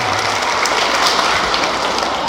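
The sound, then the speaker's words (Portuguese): Applause for teachers from a gathered audience: dense, steady clapping that stays loud for the whole clip. “Uma salva de palmas aos... professores!”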